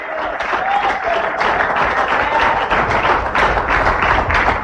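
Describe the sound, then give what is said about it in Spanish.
Congregation applauding in a church: dense, continuous clapping that stays loud and steady from start to finish. “Dale fuerte esa palma a Jesús. Apláudele si puedes.”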